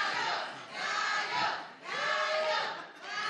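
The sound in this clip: A live-show audience chants a porra cheer, many voices shouting together in rhythmic swells that rise and fall as several repeated phrases, fairly loud and without music.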